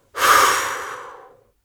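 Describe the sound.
One forceful exhale during a breathing exercise: a breathy hiss starts abruptly, peaks early and fades away over about a second, heard alone.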